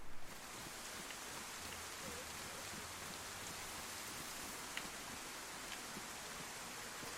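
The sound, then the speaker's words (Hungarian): Rain falling outside in bad weather, a faint, steady hiss of drops that continues evenly throughout, with a few slightly sharper drop sounds scattered through the wash and no voices. “Bejött ő is, biztos az eső elől. Amit egyébként abszolút nem csodálok, hiszen milyen rossz idő van már odakin.”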